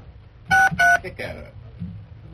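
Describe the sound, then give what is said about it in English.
Two short, loud touch-tone beeps from a telephone keypad being dialed, each a steady dual tone, followed by a person talking. “I say let's dial her up right now.”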